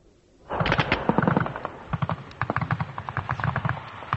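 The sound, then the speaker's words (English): Machine gun and small-arms fire in a night battle on a rocky hillside between British and Argentine troops: rapid, rattling bursts of shots that start abruptly and continue in uneven staccato volleys. “You can hear the bullets now whizzing around us, ricocheting off the rocks. A heavy salvo of small arms fire, machine gun fire coming both down the hill and then up the hill in reply from the British troops ahead of me.”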